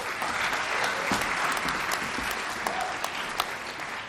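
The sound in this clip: Audience applause greets a speaker coming on stage at a university student event: steady, dense clapping from a crowd that carries through the whole stretch with no talk over it.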